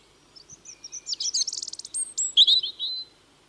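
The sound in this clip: A small songbird that sings from prominent perches through winter delivers a high, thin song phrase: scattered tweets build into a rapid run of twittering trills and end in a few sharp, bright notes, alone against quiet background.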